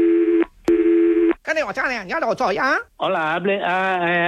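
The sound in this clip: Electronic telephone tones sound while a call is being transferred to another department: two long, steady buzzing tones separated by a short gap, followed by wavering tonal sounds on the line.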